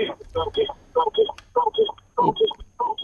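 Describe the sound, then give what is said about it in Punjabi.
A radio set plays in the background of a telephone caller's line, coming through as tinny, narrow-band, voice-like bursts in a choppy, steady rhythm at fairly loud level. “ਉਹ ਮਾਲਕੋ radio set ਦੀ ਆਵਾਜ਼ ਘਟਾਓ। Hello, ਆਪਣਾ radio ਬੰਦ ਕਰੋ ਪਹਿਲਾਂ।”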